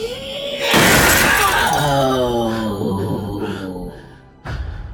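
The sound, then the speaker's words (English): Glass windows shatter and burst outwards in a loud crash, preceded by a brief shrill rising tone. Descending tones and debris trail off behind it, and a second sharp impact sounds near the end. “The shrill sound, coupled with the force of her voice, caused all of the first floor windows to burst outwards.”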